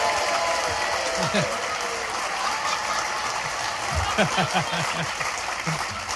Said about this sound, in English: Look at her hogging my applause.